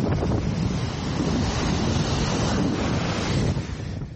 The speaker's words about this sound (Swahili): Ni sauti za upepo mkali na mawimbi yanayochapa kingo za bahari al-Mutawassit.